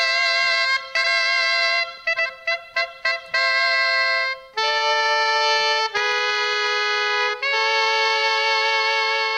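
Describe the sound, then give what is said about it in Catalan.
Tiple, the Catalan cobla's handmade double-reed wooden instrument, plays a solo melody with a bright, nasal tone: a few separate notes, then a quick run of short notes, then several long sustained notes. “Un instrument que és de ben fusta i que està fet de doble canya. Això vol dir que per on bufa el músic hi ha una canya que està feta a mà i sona d'aquesta manera l'instrument del tiple.”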